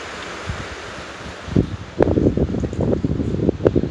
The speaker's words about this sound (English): I don't know if you can hear the wind, it's nice.